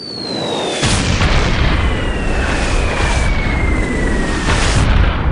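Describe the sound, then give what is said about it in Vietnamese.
An explosion of a black sphere at the centre of an area releasing radiation: a sudden burst after a brief near-quiet start, then a loud, sustained roaring rumble with a thin, steadily descending whine across it. “Lúc này thì quả cầu đen ở vị trí trung tâm đã nổ tung, phóng xạ đáng sợ bắt đầu tản ra ngoài.”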